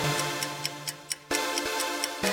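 A clock ticks in an even, brisk rhythm of crisp clicks over a sustained low musical tone.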